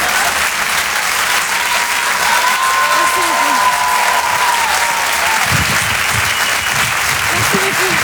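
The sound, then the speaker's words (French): A comedy club audience applauds comedian Marine Baousson. Dense, even clapping goes on loudly for the whole stretch, with a few voices audible beneath it. “On peut l'applaudir très fort, Marine Baousson, en direct et en live sur la chanson.”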